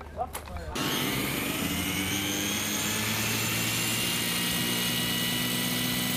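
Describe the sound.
A belt sander turned into a power race car runs with a loud, continuous high-pitched whine and roar. The sound starts abruptly after a few brief sounds and holds steady to the end.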